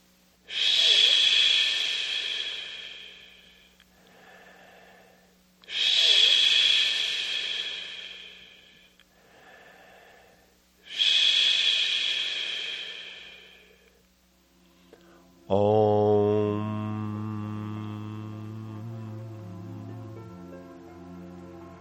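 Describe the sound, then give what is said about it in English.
A voice makes three long, breathy 'ish' exhalations during a guided meditation, evenly spaced with quiet pauses. They are followed by a sustained, low hummed om that rings on to the end. “Now close your eyes and take a long, slow, deep breath. And let's begin with three ishes and one om sound.”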